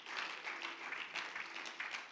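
A church audience clapping hands in praise during a sermon makes a quiet, continuous, rustling applause of many people, with some slightly louder bursts standing out from the steady texture.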